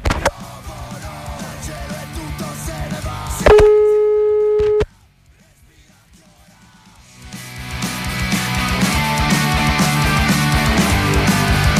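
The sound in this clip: A telephone tone heard while trying to reconnect a dropped call: one loud, buzzy tone about a second long cuts in between stretches of music. Near silence follows before the music returns.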